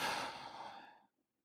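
A deep breath released out during a guided meditation, a soft breathy rush that starts strong and fades away over about a second, heard alone.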